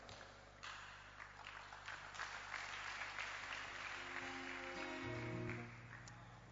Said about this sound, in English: help me welcome our brother Ernest. Put your hands together for Ernest as he comes on stage to bring us this powerful testimony.